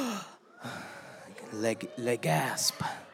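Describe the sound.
Church audience gasping together on cue during a sermon, a cluster of breathy, vocalized gasps from many people that swell in loudness and come in a few uneven bursts.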